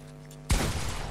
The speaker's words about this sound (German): du hast durch die Wand geschossen